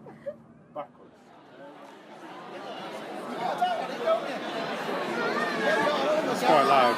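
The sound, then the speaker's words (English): Noisy crowd chatter in the Pleasant Schoolyard at the Fringe: a couple of isolated sounds at the start, then a babble of many voices that builds steadily to a loud, busy hubbub. “Now we're in the Pleasant Schoolyard. Hello. That's why it's so bloody noisy here.”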